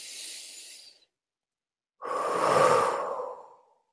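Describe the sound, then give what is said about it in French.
A deep breath drawn in during a guided affirmation exercise: a short airy hiss, a pause of about a second, then a longer, fuller breath that swells and fades out. “Inspire.”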